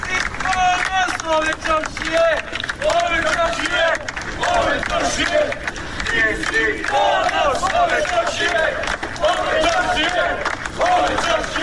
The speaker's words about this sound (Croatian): a građani su je dočekali aplauzom i povicima da je ponos čaršije.